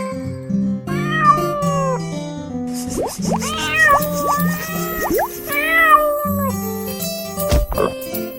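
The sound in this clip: A kitten meows several times in high, bending cries over a musical backing.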